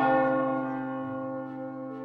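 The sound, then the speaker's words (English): A village clock-tower bell strikes at midnight. One resonant, clanging strike rings out clearly, then fades slowly into a long, humming decay with no voices. “Sure enough, the village clock tower clanged its midnight bells,”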